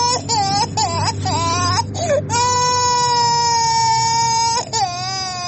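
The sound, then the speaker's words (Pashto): Young children of about two and three, sick with an illness, cry in Kandahar: a few short, choppy sobbing wails give way to a long, sustained high-pitched wail, loud and continuous. “دا ژړا بیا د هلمند په ګاونډ کې د کندهار د اوسیدونکي محمد الله د تنکیو ماشومانو ده چې په همدې ناروغۍ اخته سوي دي”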